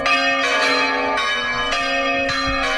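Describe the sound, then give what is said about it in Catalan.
Church bells ring loudly and continuously, with many overlapping strikes that blend into a dense, sustained metallic peal and no voices. “El de les campanes de Sant Oleguer, que van seguides, això sí, sempre, i acompanyades d'aquest altre so.”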